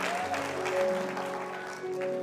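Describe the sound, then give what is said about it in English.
A church audience claps together, a brief, steady burst of many hands at moderate loudness that holds for a couple of seconds. “Clap your hand and you may be seated.”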